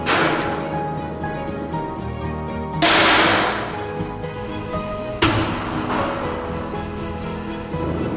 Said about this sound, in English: Shockwave experiments are days and days and months of preparation, followed by a microsecond of data. Firing in 3, 2, 1.